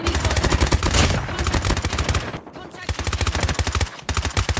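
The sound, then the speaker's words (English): Rapid automatic gunfire in a video game shooter: fast, loud bursts of shots in tight rhythmic strings, broken by a short lull before the firing resumes. “when you're shooting at people, you can hear the hit marker sound. And when people are shooting at you, you can hear the hit marker sound as well.”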